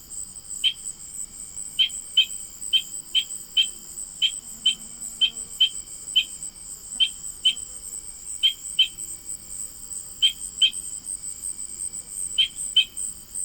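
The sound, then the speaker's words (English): Spring peeper frogs calling in autumn give many short, high peeps repeated at irregular intervals over a continuous high-pitched trilling drone. “But why call them spring peepers when they're sounding off in the autumn?”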